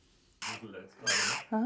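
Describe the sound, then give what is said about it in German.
Hungry jackdaw chicks call noisily in harsh, raspy squawks: two broad scratchy bursts followed by a shorter, more tonal cry at the end. “Die Dohlenkinder machen ganz schön Rabatz. Sie haben Hunger, jede Menge Hunger.”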